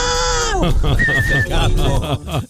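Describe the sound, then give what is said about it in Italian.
Sheep bleating, the animals being used to graze grass around Rome: a loud, sustained bleat whose pitch drops at the end, followed by a run of wavering, throaty calls. “Ma oggi volevo usare le pecore per tosare l'erba in giro per Roma.”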